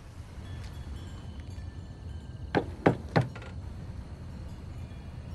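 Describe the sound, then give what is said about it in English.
Three quick knocks on a front door with an engraved flower glass pane, at night. The sharp raps are moderately loud and evenly spaced over a faint, steady background hiss. “When he knocks, the door opens.”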